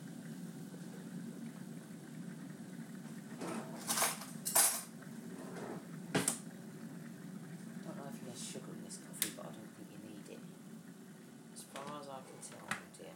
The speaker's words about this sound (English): very careful lifting this kettle because of the fissure. It's not too heavy today.